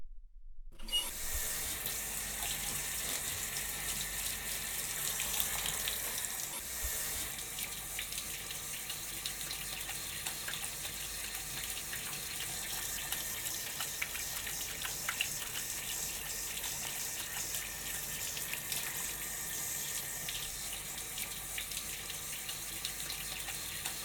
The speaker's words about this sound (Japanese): それじゃあこのまま頭を洗い流していくから、まだお目目閉じててね。